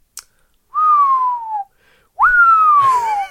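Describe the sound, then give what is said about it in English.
A voice whistles the falling sound of a rock dropped down a hole: two long, clear tones, each gliding downward, the second a little higher and longer, after a brief click and ending in a faint rustle. “That's the sound of me dropping a rock in the internet hole.”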